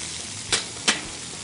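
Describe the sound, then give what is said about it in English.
White and red onions with finely chopped garlic frying in a pan: two short, bright sizzling bursts rise over a faint, steady hiss, with no voices. “I'm just gonna throw the onions in here. We got white, we got red. We got some finely chopped garlic.”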